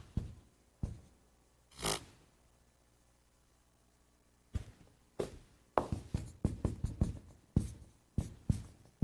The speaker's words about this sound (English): This will go faster if I don't talk while I'm writing.